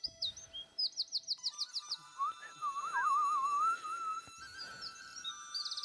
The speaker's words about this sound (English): Do you hear the birds chirping? It's beautiful.